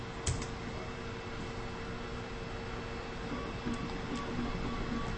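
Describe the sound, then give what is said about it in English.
DVD drive grinding as a computer boots from a disc: a soft, steady whirring noise runs throughout, broken by a few faint sharp clicks. “Drive is grinding away. That's a good sign. The DVD drive is definitely wearing away”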